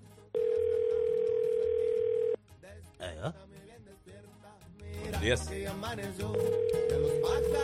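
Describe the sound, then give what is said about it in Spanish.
Telephone ringback tone heard while placing a call to a woman in El Salvador: a long, steady, loud electronic tone, then talk and other sounds, then the same tone starting again near the end. “Vamos a llamar a la señora Ana.”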